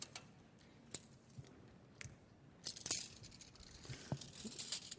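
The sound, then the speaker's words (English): A tape measure pulled out, its blade giving faint, scattered ticks and light rattling clicks that grow denser toward the end. “There's one more tool that's in all these craftsmen's toolbox. It's a tape measure, right? What happens when the tape measure comes out? What, do you, what comes to mind when you, know, you see somebody start to do this?”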